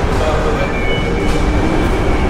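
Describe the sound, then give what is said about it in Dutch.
Steady mechanical rumble and hum while descending by escalator into a Brussels metro station, with a faint tonal whine running through the dense, even noise. “Dat is een van de meest meeslepende roltrapreizen die je kunt doen in de metro in Brussel. Is die stinktrap afgaan onder die gigantische bruine Dubrunfaux. En terwijl dat je afdaalt, kom je terecht in de warme lucht van de metro.”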